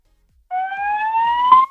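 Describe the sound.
A loader's siren gives one loud, steady electronic tone lasting just over a second and rising slightly in pitch, heard alone after a moment of silence.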